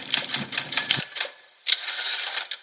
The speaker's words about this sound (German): Das war unser fantastisches Hörerpost-Jingle.